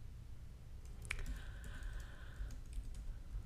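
Faint computer-keyboard typing as notes are written out: a few scattered light key clicks over quiet background hiss.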